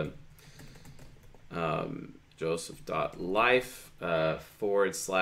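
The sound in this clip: Computer keyboard typing as a website address is entered: quick, light key clicks run throughout, beneath continuous talk.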